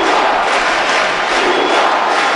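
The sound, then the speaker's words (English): A thunderous crowd roar fills a packed baseball stadium as the presidents walk out, a loud, dense, unbroken wall of cheering. “President Barack Obama with the first family and President Raul Castro walked out to a thunderous roar.”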